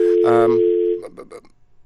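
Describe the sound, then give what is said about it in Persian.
Steady telephone dial tone after a dropped call, sustained for about a second before breaking into brief, choppy voice-like fragments. “فکر میکنم که تماس ما با آقای راهی قطع شده.”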